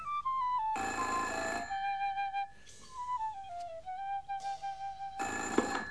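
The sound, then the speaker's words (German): A telephone rings in several separate bursts of a harsh, buzzing bell, with a thin gliding tone running underneath between and through the rings. No one talks. “Da erlöste sie das Telefon aus ihren Träumereien.”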